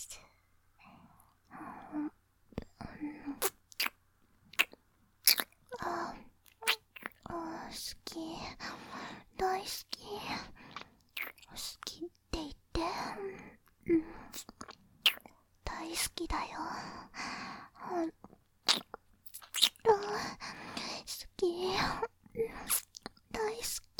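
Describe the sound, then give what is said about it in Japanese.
Close ASMR ear licking and wet mouth sounds, with many soft smacks and clicks in irregular bursts, mixed with breathy whispering and moaning. “お耳も舐めちゃう。いただきます。”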